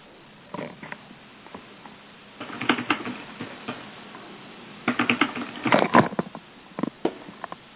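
Keys clatter as someone types a message on a computer keyboard, in quick clusters of light clicks separated by short pauses. The sound is fairly clear and has a thin, narrowband quality.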